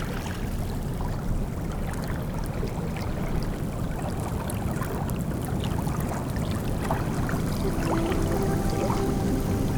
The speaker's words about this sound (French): Petite vaguelette à marée basse.